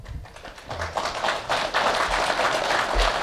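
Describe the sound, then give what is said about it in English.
Applause from an audience at a question-and-answer session, a dense patter of claps that swells slightly after the first second and holds steady for about three seconds. “Only the good questions get applauses.”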